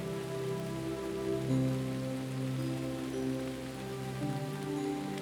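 Steady rain falls on a surface in a forest, an unbroken, even patter that holds at a constant level throughout with no voices.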